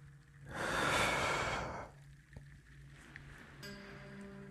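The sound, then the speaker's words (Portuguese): A single deep, slow breath drawn in during a guided meditation, a breathy rush that swells and lasts about a second and a half, then gives way to quiet with a low, steady tonal hum underneath. “Respire novamente, enchendo seus pulmões.”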